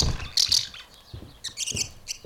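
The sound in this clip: Pet birds chirping while they fly free indoors: a few bright, high chirps come in short bursts, some paired, over a soft, steady background.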